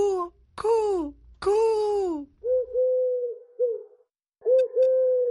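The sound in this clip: Dove cooing: a short run of low, steady, hooting coos, each soft and rounded, coming after several louder, harmonically rich wailing calls.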